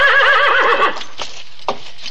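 An ornery old horse in a Western setting neighs loudly with a wavering, whinnying cry for about a second, followed by quieter soft knocks like hooves.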